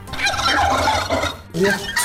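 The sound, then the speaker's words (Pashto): Turkeys gobbling on a turkey breeding farm in Takhar, Afghanistan: a loud, dense, continuous chorus of overlapping gobbles and chatter from many birds, with a brief dip near the end. “د تخار څخه به تاسو ته ریپورت خبر کو چې هلته د فیلمرغانو د روزنې او پالنې او فارم جوړ شوی”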